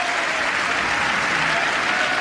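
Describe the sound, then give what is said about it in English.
Applause during President Biden's State of the Union address, a dense, continuous roar of clapping from a large audience at a steady, loud level. “Now, keep in mind, there's a little bit of applause and mishmash, but they're all combined together here.”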